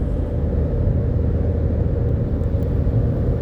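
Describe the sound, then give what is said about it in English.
A car cruises at about 60 mph on a highway and changes lanes into a smoother lane. The road and tire rumble is loud, low and steady, and no voices are heard. “We change lanes, get over in that smooth lane, see what happens here. Changing lanes at 60 miles an hour with a 2-inch”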